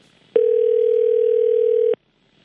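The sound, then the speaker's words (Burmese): A telephone dial tone sounds after the line is cut off: one steady, unbroken electronic tone lasting about a second and a half, starting and stopping cleanly against near silence. “တယ်လီဖုန်းလိုင်းကြားသွားတယ်”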